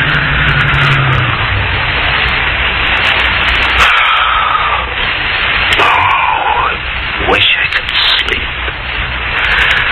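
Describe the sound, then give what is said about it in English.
A car engine runs steadily as the car pulls over by a gas station at night, a continuous low hum laced with static hiss, with no sharp breaks. “Pull up at the side of the road. Look, see? Up ahead, a gas station close to the night. We'll park there.”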